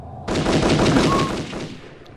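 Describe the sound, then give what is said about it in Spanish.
A single gunshot from a weapon fired accidentally while being cleaned at a barracks: one sharp, loud blast that hits suddenly and then dies away over about two seconds. “accidentalmente se produce un disparo que le atraviesa la cabeza de lado a lado”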